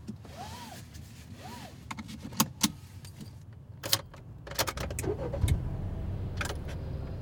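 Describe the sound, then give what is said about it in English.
A car on a drive along the Hudson River: a low engine rumble runs throughout, with sharp clicks, jangling keys and a couple of whirring power-window sweeps, and the rumble grows louder toward the end. “There was one stream I wanted to visit, so I drove along the Hudson to a little spot called Garrison, about 45 miles north of New York City.”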